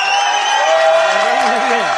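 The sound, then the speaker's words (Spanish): Audience applause, a bright, sustained burst of clapping from a crowd. Voices shout and cheer over it, with a few tonal calls sliding up and down near the end. “Vamos a darle un aplauso a este.”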